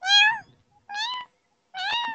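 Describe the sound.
Three clear meows from a cat, evenly spaced about a second apart. The first is the longest and loudest, and each has a bright, slightly wavering tone with silence between.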